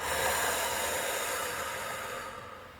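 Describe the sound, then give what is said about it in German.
A deep breath during a relaxation exercise, heard as one long, airy rush of breath that slowly fades away over a few seconds, with no talking. “Und jetzt atme noch einmal tief ein und wieder aus.”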